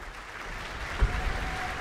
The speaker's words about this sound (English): Applause for our conductor, Pietari Inkinen, who will lead Jean Sibelius' symphonic fantasy, Pohjola's Daughter, performed by the New Zealand Symphony Orchestra.